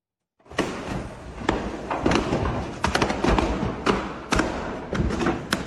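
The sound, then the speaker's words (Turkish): Explosions go off one after another during a fire at a furniture shop in Buca, İzmir: a series of sharp, loud bangs and thuds, irregularly spaced, over a continuous crackling roar. “Yangın sırasında ard arda patlamalar oldu. İşte o anlar ve sonrasında yaşananlar.”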